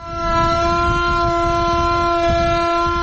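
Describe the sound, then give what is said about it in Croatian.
An air raid siren sounds the general danger alarm at a commemoration in Mostar marking the anniversary of the Old Bridge's destruction: a loud, steady, harmonic-rich tone held unbroken throughout, with faint low rumble beneath. “Uz zvuke ratne sirene za opću opasnost”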